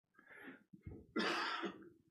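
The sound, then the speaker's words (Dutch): A person coughing a few times, with rough, throaty bursts followed by a longer, harsher cough, quiet overall and with no talk. “Goed dat je hoest”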